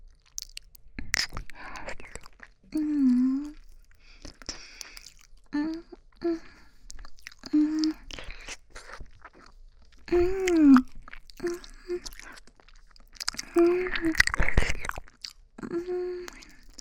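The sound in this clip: Someone eating a meal, with moist chewing and crunchy bites broken up by soft, breathy talking and whispering between mouthfuls.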